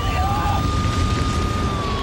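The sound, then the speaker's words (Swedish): A parked fire engine switches on its siren and accelerates hard: a steady high siren tone holds over heavy, rumbling low engine noise. “En brandbil som stått parkerad slår på sirenen och trycker gasen i botten.”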